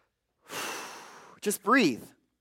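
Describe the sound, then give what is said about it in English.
A person takes a deep breath in, heard as a steady airy rush lasting about a second, then lets it out with a short voiced burst and a sighing exhale. “Just breathe and let it out and know that you are still alive.”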